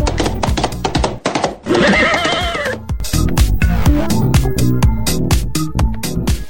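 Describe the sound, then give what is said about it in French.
Galloping horse sound effect: rapid, loud hoofbeats throughout, broken by a single drawn-out whinny near the middle before the pounding rhythm resumes. “La School Radio arrive au galop”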